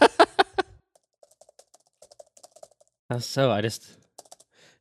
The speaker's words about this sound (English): What did you just say? I just want to type exactly what you just said right in there.